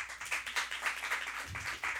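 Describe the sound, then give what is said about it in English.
Applause and clapping from an audience at a celebrity guessing game: a dense, steady patter of many hands at a fairly even level, with a brief low thump near the end. “So a round of applause for”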